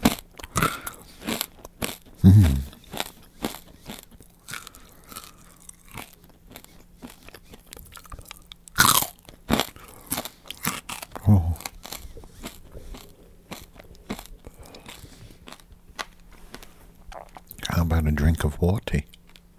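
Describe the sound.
Crunchy bites and crackles of an animal chewing corn, irregular and mostly soft, with a few louder crunching bursts standing out among quieter crackling.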